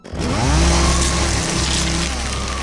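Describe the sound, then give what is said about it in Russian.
A jet saw power tool starts up, its motor spinning up quickly into a loud, steady buzzing drone that holds to the end. “Тогда я завершил приготовление и поднял реактивную пилу.”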